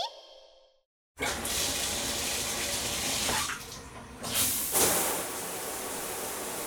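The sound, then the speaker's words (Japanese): Water pours to rinse someone's back in a bath, a steady, broad rushing splash that starts abruptly after a brief quiet and surges louder a few times, with no talk. “お背中流しますね。”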